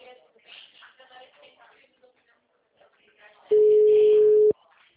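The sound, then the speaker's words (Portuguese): A telephone rings unanswered, heard as a single steady, low-pitched ringback tone about one second long, following a stretch of quiet talking. “Esse povo não me atende, o povo tá dormindo. Pro cliente que eu tô mandando um áudio, eu já tô ligando.”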